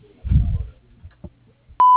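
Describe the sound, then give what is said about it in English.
A voicemail beep ends a septic service's phone greeting: one loud, steady electronic tone that lasts a brief moment, following a few low, muffled sounds. “Please leave your name, number, and a brief message after the beep”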